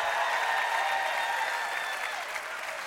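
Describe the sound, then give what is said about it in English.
A church audience claps and cheers in a brief burst of steady, fairly faint applause that eases off slightly toward the end. “If you're only here because God's been good, 1, 2, 3, make a little noise in the house.”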